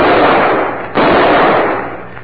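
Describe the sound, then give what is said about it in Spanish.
Two pistol shots, each a loud, sharp blast trailing into a long, fading rush of noise, the second coming about a second after the first, with no talk. “Ya tiró los otros dos que le quedaban. Ya no tiene parque su pistola.”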